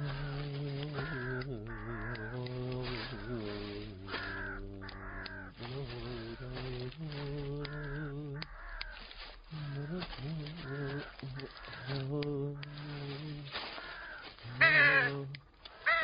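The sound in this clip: Crows cawing over and over, a long run of repeated harsh calls that carries on steadily throughout, fairly loud and evenly sustained.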